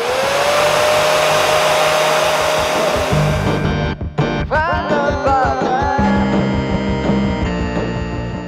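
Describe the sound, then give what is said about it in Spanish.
A hair dryer used as an instrument in experimental music gives a loud, steady whirring blow with a sustained tone, then midway gives way to pitched, electronic-sounding musical notes. “Ellos exploran más el terreno de la creación a partir de sonidos no convencionales, el de un secador, por ejemplo.”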